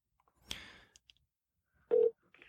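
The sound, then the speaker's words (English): A phone call being placed by pressing the green button on a phone: a soft click with a short fizzing tail, a few faint ticks, then a brief, steady electronic beep and a last quiet blip. “Come on. Now call. It's supposed to be calling. Call. Hit the green button”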